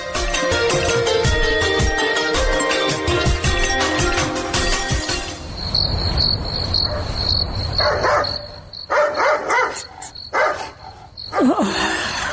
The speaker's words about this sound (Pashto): واښه څه خبره ده چې په دې نیمه شپه کې بونګېږي؟